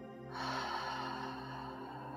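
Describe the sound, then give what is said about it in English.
A deep relaxation breath is drawn in through the nose as one long, steady, airy inhale that starts abruptly and stays soft and even. No talk accompanies it. “we're going to take a couple of deep breaths just to get us feeling nice and relaxed before we start this process. On an inhale through the nose and exhale through the mouth”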